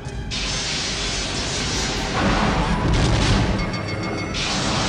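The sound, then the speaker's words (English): Starship phasers firing as a sci-fi sound effect: a loud, dense, unbroken blast of noise with a grinding, mechanical texture that shifts and swells partway through. “Lock phasers on target. Locking phasers on target. They're locking phasers. Raise shields. Fire!”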